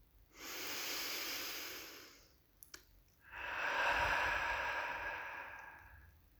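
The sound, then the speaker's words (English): Someone takes a deep breath: two long, soft, airy hisses, each swelling and fading over a couple of seconds, with a small click between them and no talk. “But I'm going to take another breath.”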